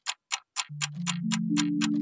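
An old-fashioned clock ticks eight times at an even, quick pace. From the third tick on, a sustained tone runs beneath the ticks and rises in clear steps.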